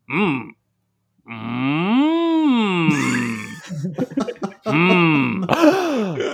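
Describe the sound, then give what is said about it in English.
Groans from a video game character: several drawn-out vocal moans with wavering pitch, broken by short choppy breathy bursts, with a sharp gasp among them. “Just a series of groans and a gasp.”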